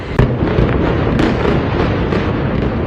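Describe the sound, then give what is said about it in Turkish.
Phosphorus bombs dropped by warplanes on a town in southern Lebanon burst and crackle. A loud, continuous barrage of sharp snaps and pops runs the whole time with no voices. “İsrail savaş uçaklarının Nebatiye'ye bağlı Yahmur Şakif beldesine fosfor bombasıyla saldırdığı anlar görüntülerle tespit edildi.”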